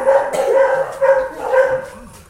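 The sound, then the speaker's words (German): Dogs at an animal shelter bark in a string of sharp, mid-pitched barks that come in quick succession and overlap one another, loud and agitated throughout. “erschreckt euch nicht, die bellen alle jetzt, wie die Blöden”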